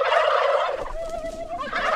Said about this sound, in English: These turkeys have no clue what they're in for. They are hand-picked and raised for the greatest holiday ever, Thanksgiving.